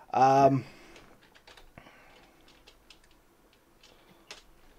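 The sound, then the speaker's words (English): Faint typing on a computer keyboard, done while working around a cord: a light, irregular patter of soft clicks that follows a brief, loud voiced sound at the very start. “I'm just trying to type around a cord here.”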